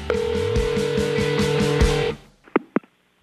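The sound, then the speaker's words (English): Telephone voicemail tones: a steady electronic tone with regularly pulsed beeps for about two seconds, then a fade and a few short, sharp blips, with no voices. “It's time to check Adam's voicemail.”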